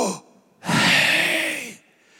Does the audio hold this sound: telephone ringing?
no